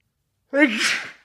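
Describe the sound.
A single sneeze during a bad pollen season, a short voiced intake that breaks into a breathy burst and then trails off, loud and heard alone.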